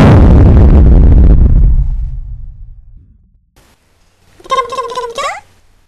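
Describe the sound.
A sci-fi weapon blast fires aboard a spaceship: a loud, booming explosion that rumbles and decays over about two seconds before fading to near silence.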